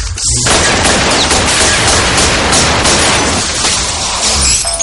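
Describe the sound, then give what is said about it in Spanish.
Gunfire riddling a car with holes in a horror-comedy film scene about werewolves: a loud, dense, unbroken clatter and roar that fills the whole stretch without clear gaps between individual shots. “Dispara y agujerea el coche.”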